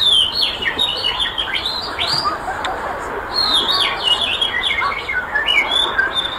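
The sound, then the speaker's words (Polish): Birds chirping and twittering from a played recording: dense, high, quick chirps and trills run continuously throughout at a fairly loud level. “trudny tytuł: Ćwierkać, czyrkać i świergotać. Mam nagrania, mogę teraz znaleźć.”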